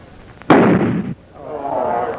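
A single loud gunshot fired at a store of gunpowder to explode it: a sharp blast that roars for about half a second, then drops back to a low, steady rushing background.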